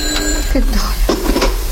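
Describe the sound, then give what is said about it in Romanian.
A telephone rings briefly with a bright, steady tone at the start, then voices talk over a constant low hum. “Ce-i asta? Stai telefonul. Stați că îl ridic eu.”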